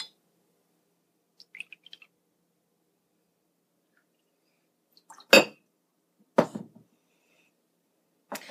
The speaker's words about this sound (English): stir it around. Try and dissolve the sugar.